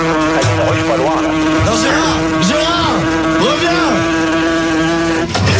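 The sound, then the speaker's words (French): A fly buzzes loudly and continuously, its droning pitch swooping up and down again and again as it moves about. “Pouf, la mouche est partie.”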